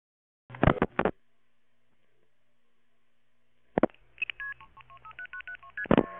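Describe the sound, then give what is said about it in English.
Telephone keypad touch-tones dial a conference number, a quick run of short, clean beeping tones following brief bursts of noise on an otherwise near-silent line. “Please dial 1088 to join the conversation.”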